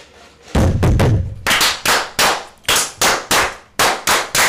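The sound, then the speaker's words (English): Fists pound a table during a fraternal ritual toast among brethren, producing many loud, heavy thumps that start as a dense cluster and then fall into a more regular beat. “Just now, you hit the table a little late. A little bit. You were off by a fraction of a second.”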